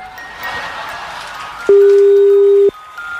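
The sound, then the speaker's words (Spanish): Telephone ringback tone while a call is being dialed: one steady, mid-pitched beep lasting about a second, sounding loudly over a faint noisy background that continues before and after it. “Ahí está marcando.”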